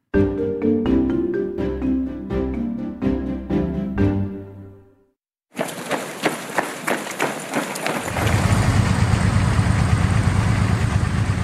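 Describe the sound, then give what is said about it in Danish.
Trains carrying military equipment arrive. After some ringing tonal notes, a rhythmic metallic clatter of wheels starts and swells into a loud, steady rumbling roar. “Sådan her lød det lidt tidligere på ugen, da herreenheder fra Kina og Mongoliet ankom til Rusland på togkolonner med militærudstyr.”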